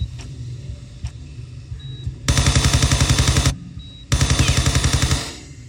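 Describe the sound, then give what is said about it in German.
Rapid automatic gunfire from a shooter video game comes in two sustained bursts of fast, evenly spaced shots with a short pause between them, over a low, steady background hum. “Das ist der typische Sound von Tomb Raider, einem der ersten sehr populären Shooter-Games.”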